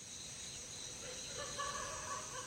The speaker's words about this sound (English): Birds and dogs are always the first to rise in Jitvapur, around 5, well before dawn.